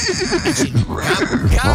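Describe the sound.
A horse neighing, a loud quavering whinny with rapid pulsing, heard alone and lasting under two seconds.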